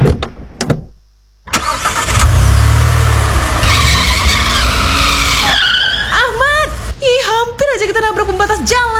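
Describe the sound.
A car drives on a dark, slippery road in the rain with its wipers failing. Loud engine and road noise come with a skidding rush, and people talk over the noise in the latter part.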